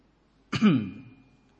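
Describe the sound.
A single cough with a sharp, forceful onset and a rasping tail that fades over about a second, heard alone with no talk around it.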